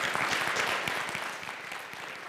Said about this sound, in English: can you clap for that?